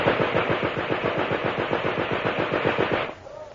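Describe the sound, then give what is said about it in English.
Machine-gun fire: a loud, sustained burst of many rapid, evenly spaced shots that rattles for about three seconds, then cuts off to a faint tail. “Machine gun!”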